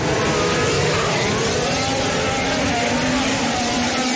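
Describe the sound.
Formula 1 car engines roaring together at a race start, a dense, loud, continuous roar of high-revving engines with no break or pause.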